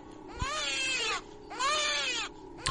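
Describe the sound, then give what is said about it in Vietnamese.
A newborn baby cries in two long, high, wavering wails separated by a short pause, with a third wail starting right at the end; sharp clicks mark the onsets. “Nhìn thằng Nam, mặc dù nhoẻn miệng cười, ấy nhưng tiếng khóc lại phát ra che che che che của trẻ sơ sinh.”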